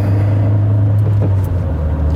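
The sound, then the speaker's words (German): A car drives onto a motorway, its engine giving a steady low rumble and continuous drone, with no clear revving and no voices. “Dann fahre ich doch einfach mal auf die Autobahn.”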